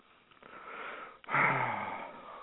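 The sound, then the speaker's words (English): A loud, breathy intake of air taken after a long rant, heard alone against a steady hiss; a fainter rush of breath comes first, then a sharp, noisy inhale lasts over a second. “I said that without taking a breath, and I just took a breath.”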